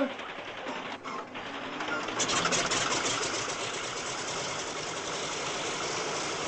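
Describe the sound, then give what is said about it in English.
An aircraft engine catches after the propeller is turned by hand, rising to a dense, steady buzzing drone that holds loud to the end. “Well, switch on while I turn the prop.”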